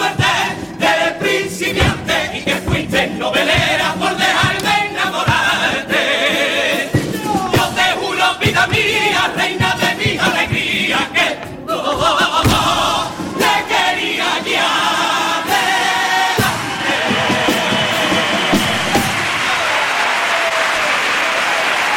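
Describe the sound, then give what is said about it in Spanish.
Loud, sustained applause and cheering from a standing audience greet a Cádiz carnival comparsa's opening pasodoble at the COAC preliminaries. The dense clapping and shouts continue without a break for the whole stretch. “Pues parte del público que se pone en pie para premiar este primero de los pasodobles, el pasodoble de presentación”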